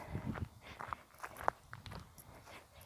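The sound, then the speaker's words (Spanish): Footsteps of someone walking firmly, heard as a series of faint, soft thuds and scuffs in an uneven rhythm. “el ruido de los pasos, y la verdad que siento que camino bastante firme.”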